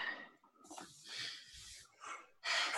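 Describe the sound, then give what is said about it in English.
A person takes a breath, heard as a few soft, airy breathing sounds with short gaps between them, faint and breathy, ending on a fuller rush of air. “And then just take a breath.”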